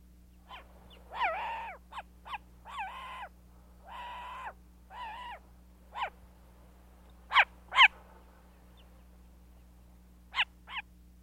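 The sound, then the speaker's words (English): An eared owl calls in a series of many short, harsh, barking notes with a nasal, harmonic tone, spaced irregularly over a faint steady hum, with the loudest calls coming in the later part. “Eared Owl.”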